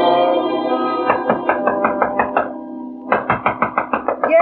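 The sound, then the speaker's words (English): A fist pounds hard on a door in two rapid runs of heavy knocks, each run about eight or nine blows, under a sustained, droning musical tone. “But that's no call to be pounding on me door so hard that the divil himself would rise”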